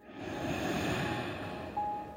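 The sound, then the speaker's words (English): A slow, deep breath drawn in through the nose during a relaxation exercise: a soft, steady, airy rush that lasts about two seconds and sounds alone. “Take a deep breath all the way in through your nostrils and out through your mouth. Nice and deep breath in.”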